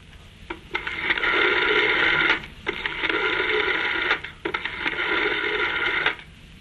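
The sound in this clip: A telephone rings in a dramatized domestic scene. Three long, loud, trilling bursts of ringing are separated by short pauses.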